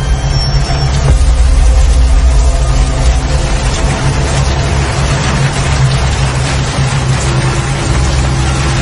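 A car engine roars as the car speeds past a motorbike, making a loud, dense low rumble that holds steady throughout with no pauses.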